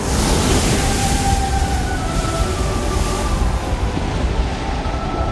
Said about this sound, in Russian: Нос корабля разрезает воду, словно ножницы бумаги. Джек и Фабрица залезают на носовые перила и, слегка наклонившись вперед, смотрят вниз на пенящуюся воду.